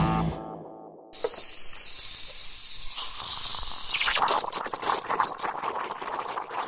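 A café coffee machine's steam wand frothing milk for cappuccino: a loud, bright hiss cuts in abruptly after a brief quiet tone, then turns rougher midway into a sputtering, bubbling roar that continues to the end.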